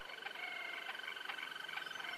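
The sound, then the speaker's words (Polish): Green toad singing: a faint, steady, high-pitched trill holds level throughout. A few brief, sharper notes stand out over it. “Ropucha zielona, ona potrafi śpiewać.”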